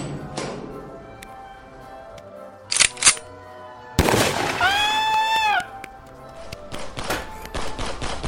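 Gunshots from a real gun ring out as a few sharp, loud bangs over a low background, soon followed by a high whistling tone that slides up and down.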